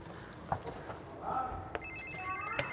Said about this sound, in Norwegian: Ringe på